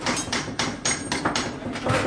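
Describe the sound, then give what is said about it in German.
Hammer blows ring out at workbenches in a training workshop for heating and plumbing apprentices, sharp, loud strikes repeating steadily about four times a second. “Hier wird an Arbeitstischen gehämmert und gefeilt.”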